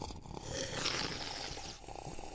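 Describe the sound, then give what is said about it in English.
A single airy slurp of coffee drawn in forcefully while tasting. The hissing, sucking rush lasts about a second and stands alone against a faint background. “like I showed you guys how to taste, give it a good slurp.”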